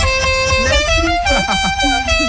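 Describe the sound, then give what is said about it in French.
A car horn with an odd, strange sound blares as one loud, sustained, steady tone through the whole clip, with a voice faintly audible underneath. “Falloir réviser quand même ce klaxon hein. C'est un peu bizarre.”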